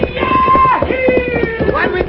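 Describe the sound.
Horses gallop while pulling a stagecoach along a road, producing rapid, driving hoofbeats and rattling under loud voices and a sustained tone.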